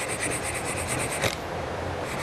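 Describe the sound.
Sandpaper rasps against a piece of wood that is not hardwood, rounding off a sharp edge. Many quick, faint back-and-forth strokes give way to a softer, steadier scrubbing hiss.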